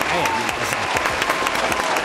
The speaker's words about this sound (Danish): Kan du ikke lige smide sådan en klapsalve på? Jo, det kan jeg let.